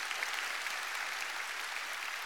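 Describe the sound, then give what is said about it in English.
Applause from a church audience at a morning service, a round of clapping for the mothers present, heard as a steady, dense wash of many hands that stays even in loudness throughout, with no voices over it. “Can we just give one more round of applause for all the mamas in the house?”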